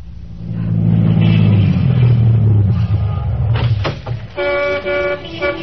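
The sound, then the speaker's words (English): A brand new Cadillac sedan pulls to a stop on a busy New Orleans corner, its loud engine rumble swelling and then easing off, followed by two bright horn honks. “a brand new Cadillac sedan pulled to a stop.”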